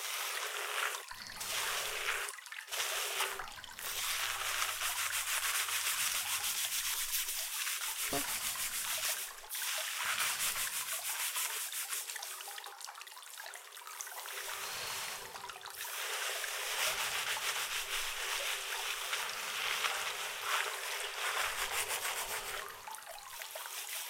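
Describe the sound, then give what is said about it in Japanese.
Wet scrubbing and rubbing of someone's hair during a shampoo, heard as a continuous soft, hissy rustle with irregular swells and brief pauses in the lathering. No one speaks. “人に頭を洗ってもらうなんて想像よりも気持ちいい行為でございますよ”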